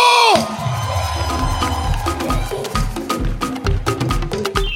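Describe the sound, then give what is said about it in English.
Crowd cheering and shouting as a performer is welcomed to the stage, a loud, continuous roar of voices with whoops throughout, over a steady low thumping pulse. “Put your hands together with a shout as we welcome Mike Ado.”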